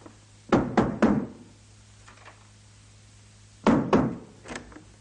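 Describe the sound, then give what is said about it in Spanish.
A door being closed gives two clusters of heavy wooden thuds and knocks a few seconds apart, each a quick run of blows, over a faint low hum with quiet gaps between. “Salieri cierra la puerta y Mozart queda a oscuras”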